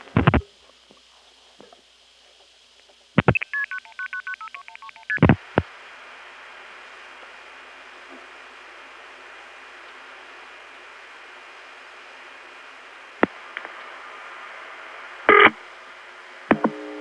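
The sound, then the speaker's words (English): Telephone dialing to a Buxton, North Carolina number on Hatteras Island: clicks, then a quick run of DTMF tones stepping between pitches, more clicks over a faint steady line hum, and a few brief bursts later on. “It turned out 2131 was on the sign, so I called it and then cut in.”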